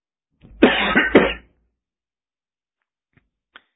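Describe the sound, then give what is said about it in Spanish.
Coughing from someone who has just come in from the cold: two harsh coughs in quick succession, the second shorter, followed by silence and a couple of faint ticks. “Pero tanto frío hacia afuera que me hacen toser.”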